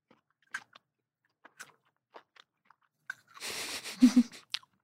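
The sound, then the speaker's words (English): Someone chews a raw carrot: sparse, crisp crunches click through the quiet, then build into a denser, louder burst of grinding chewing near the end. “I want you to start by just eating the carrot on its own and just think about the flavor.”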